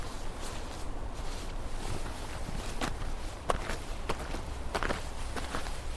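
Two people walk around behind a house, their footsteps a run of many paced, crunching treads with one sharper scuff near the middle. The steps stay fairly quiet and steady against a low background rumble.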